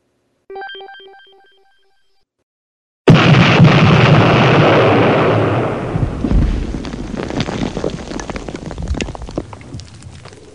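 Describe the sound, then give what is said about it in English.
An explosion sound effect: a short ringing, bell-like tone first, then after a pause a sudden loud blast that roars on and slowly decays into a rumbling tail over several seconds. “That was the sound of John Pod Horitz's head exploding.”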